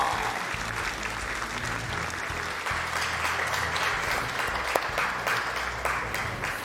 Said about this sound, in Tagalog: From UPD, University of the Philippines Defense, let's all clap for Fernando Poa.